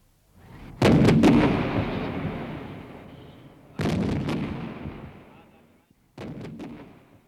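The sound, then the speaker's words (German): Artillery cannons fire a salvo in a cavalry battle, three loud, spaced booms, each followed by a long, rolling rumble that fades before the next shot. “Erstes, zweites und drittes Geschütz! Feuer!”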